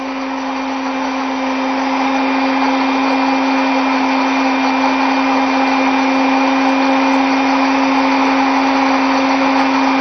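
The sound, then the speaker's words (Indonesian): A blender runs steadily, pureeing garlic with grapes and honey, giving a continuous, loud motor whine with an even hum. No pauses or speech are heard. “Jadi kalau bawang putih saja kalau di blender aromanya kuat sekali, tapi kalau bersama dengan anggur sudah agak turun, makanya kita mengharmoniskan dengan madu.”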